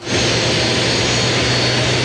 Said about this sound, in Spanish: este jet privado de la República de Panamá, porque hace instantes acaba de aterrizar acá en la losa